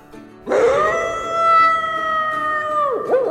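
A thin wolf howls in a forest. One long, loud, tonal howl holds a steady pitch alone for over two seconds, then wavers and bends at its end.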